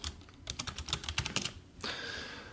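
Computer keyboard typing with many quick, uneven keystrokes clicking at a brisk pace, fairly faint and with no voices over them.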